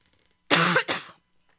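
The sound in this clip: A throat-clearing cough from someone with a tickle in the throat: two short, rough bursts back to back, the first longer and louder, heard alone with no talk.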